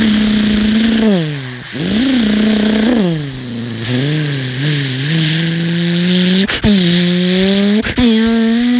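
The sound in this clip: A car engine pulls away and revs hard, its pitch sweeping upward again and again and dropping back between gear changes. The engine is loud and continuous throughout, with no talk.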